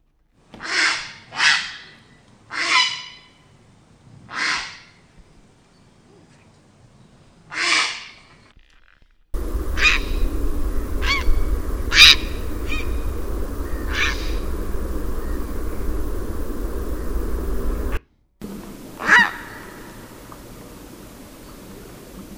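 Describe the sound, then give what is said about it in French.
Grey heron calls ring out as a series of harsh, rasping croaks, separate loud squawks spaced irregularly, some standing alone and others over a steady background hiss. “On peut écouter le héron cendré.”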